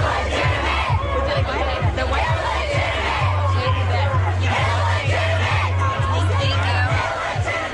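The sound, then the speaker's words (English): Angry protesters chant and yell in reaction to the Supreme Court overturning Roe v. Wade. The massed shouting is loud and continuous, with a steady rhythmic pulse running through the whole stretch. “But their amplified sound was mostly drowned out by angry chants from protesters.”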